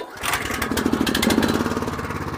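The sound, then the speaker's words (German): A mower cutting grass along a steep public path: a steady, buzzing engine drone with a fast, rough pulsing rhythm that starts after a brief quiet moment and holds fairly loud to the end. “zu Kerzers, wo man einen öffentlichen Weg, also einen Stutz, musste mähen. Das hat etwa so getönt.”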